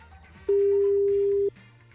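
Telephone ringback tone as a prize-draw winner is being called: a single steady mid-pitched tone lasting about one second, starting and stopping abruptly over faint background noise.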